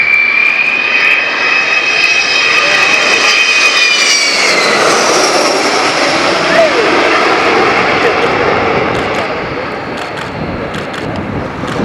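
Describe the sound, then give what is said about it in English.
An aircraft coming in to land: a loud, sustained engine roar with a high whine that drops in pitch partway through, the noise easing slightly near the end. “I always think the best pilots are those who've got the same amount of landings as they have takeoffs. So let's just see one coming into land, because this is one of the ways that you can land.”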